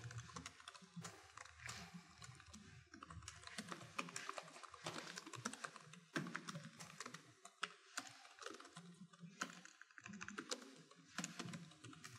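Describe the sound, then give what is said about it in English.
Typing on a computer keyboard: many rapid, irregular keystrokes clatter in quick bursts with brief pauses between runs, soft and alone, without any voice. “Let me type some stuff here.”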